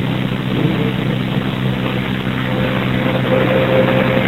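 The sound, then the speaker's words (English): A commercial garbage truck's engine gives a continuous, heavy, low rumble with a broad roar above it, steady and loud throughout with no talk. “It's a garbage truck.”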